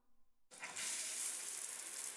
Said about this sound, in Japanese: これも流してっと。